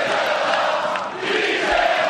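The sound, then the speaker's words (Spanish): Girona football fans chanting for their coach Míchel, a loud, dense crowd roar that holds steady from start to finish. “Mitchell Català, le cantaban a Mitchell. Bueno, es el héroe del Girona al ver, la gente está loca con él, ¿no?”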